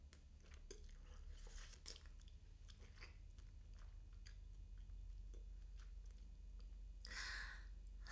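Eating carbonara pasta: quiet, wet chewing and biting with many small clicks and smacks. The mouth sounds come in an irregular stream, faint throughout, with a slightly fuller burst of noise near the end.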